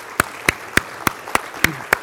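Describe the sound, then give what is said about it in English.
Steady rhythmic clapping: seven sharp, evenly spaced hand claps at a brisk, regular pace over faint background noise. “Now have another clap.”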